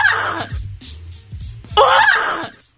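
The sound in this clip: A woman imitates the screams of female Olympic fencers, giving two loud, high, wavering shrieks separated by a quieter stretch with lower vocal sounds.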